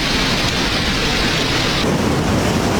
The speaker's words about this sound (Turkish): Barbaros Caddesi her sağanak yağışta bu şekilde.